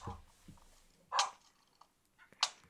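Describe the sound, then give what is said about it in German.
Dogs barking in a video game, with many dogs surrounding the player; two short, faint barks stand out about a second apart over a low background. “Es sind 20 Hunde um dich herum. Hörst du's? Hast du's gehört?”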